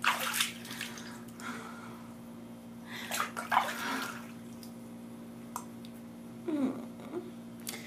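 Water splashing as someone washes in a bath: a few soft, faint splashes and sloshes over a steady low hum.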